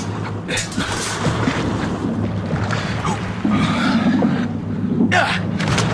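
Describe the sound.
Oars splash and water sloshes as a boat is rowed toward the Brittany coast. A steady rush of wind and water continues throughout, with a few stronger splashes rising above it.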